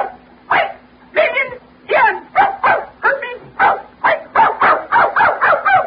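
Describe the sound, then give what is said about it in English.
A dog gives a long series of loud, sharp barks, starting with spaced barks and then coming faster and more regularly toward the end. “She said hello. That's a dog. That's canine.”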